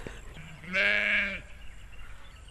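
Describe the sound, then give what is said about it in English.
A Suffolk sheep gives a single loud, wavering bleat lasting under a second. It comes from a farm flock of 85 Suffolk ewes with lambs born in August, and quiet background noise surrounds the call. “So we've got 85 Suffolk ewes, which lambed in August. So they're, the lambs are obviously still with their mums and they're just running around everywhere.”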